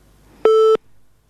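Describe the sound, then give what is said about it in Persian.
A telephone busy or disconnect tone after a phone-in listener's call drops: one steady, mid-pitched electronic beep lasting about a third of a second, clean and loud against a faint background hiss. “خب تماس شنوندی ما قطع شد”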